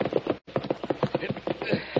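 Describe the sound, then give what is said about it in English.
Horses' hooves clip-clop along a trail as riders approach a cabin, a quick, steady rhythm of many hollow thuds moving at a walking pace, with no pauses except one brief gap. “Well, we'd better lead the horses from here.”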